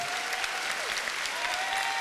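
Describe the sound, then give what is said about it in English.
A church audience claps their hands in praise, a dense, unbroken wash of applause that holds at a steady loudness through the whole clip. “take both your hands and give the Lord a biggest hand clap of praise you can find.”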